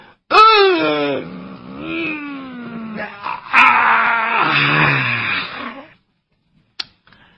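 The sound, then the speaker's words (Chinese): A voice imitates a stretch and a yawn: long, drawn-out groaning wails with sliding pitch, loud and alone, then a short quiet click. “听见伸了个懒腰，打了个哈欠”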